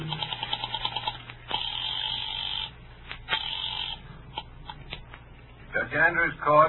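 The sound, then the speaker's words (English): Rotary telephone dialing at an office switchboard: a quick run of small clicks, then a steady humming tone with a few sharp ticks, and a voice speaking briefly at the end. “I went out to the switchboard and dialed the courthouse number.”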